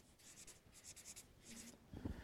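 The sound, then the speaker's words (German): Faint, scratchy handwriting sounds in a few quick bursts of strokes, with a soft low knock near the end and no voices. “Ich schreibe hier Name.”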